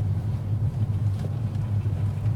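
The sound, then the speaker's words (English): A car drives along a gravel track toward a farmhouse, giving a low, steady engine rumble with slight fluctuations and no voices. “The car bounces over the gravel track to the farmhouse”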